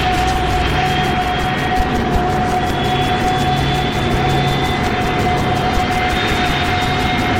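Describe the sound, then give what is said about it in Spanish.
Aircraft engine noise as a plane takes off from a runway: a steady, loud, unbroken drone with a thin, high whine riding on top, holding one level from start to finish with no voices. “jala con fuerza del timón, impulsando la aeronave a despegar de la pista unos metros antes justamente de estrellarse.”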